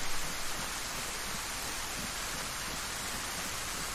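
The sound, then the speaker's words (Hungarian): Heavy rain pours down in a video game, a dense, steady hiss of water that holds an even loudness from start to finish with no voices over it. “És hát, mintha dézsából öntenék, úgy szakad az eső, és le is hűlt a karakter nagyon.”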